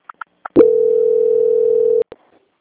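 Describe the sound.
A telephone transfer tone sounds during a call to a bank's quality-control line: one loud, steady, mid-pitched beep of about one and a half seconds. A few short clicks come before it and one comes after.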